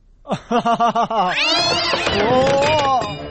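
A cat lying on the ground meows after being stepped on: a quick run of short, clear harmonic calls gives way to a longer, wavering, higher-pitched yowl.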